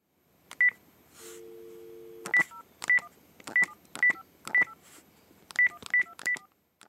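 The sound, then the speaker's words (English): Telephone keypad tones as a number is dialed: a couple of early beeps and a brief steady tone, then a quick, evenly paced run of short, bright keypress tones, fairly quiet throughout. “He's dialing a number.”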